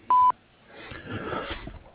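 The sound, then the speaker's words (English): An answering machine beep: a single short, steady mid-pitched tone at the start, followed by faint low rustling noise and no clear talk. “At the beep, please leave a message.”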